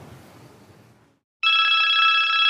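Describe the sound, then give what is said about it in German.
A phone rings for an incoming message. After a faint fading hiss and a brief silence, a loud, steady electronic trill starts abruptly and continues to the end. “Ah, ich habe eine Nachricht bekommen.”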